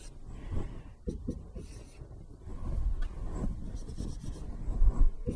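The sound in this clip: A pen scratches across a surface while a math equation for marginal cost is written out, making many short, faint strokes and rubs in an uneven rhythm, with no talking.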